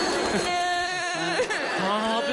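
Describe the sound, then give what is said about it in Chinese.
Crying from a sick young woman, a loud, drawn-out wavering wail whose pitch quivers and breaks into sobs, continuing with hardly a pause. “不哭啊，咱们病马上就会好的啊。不哭啊。”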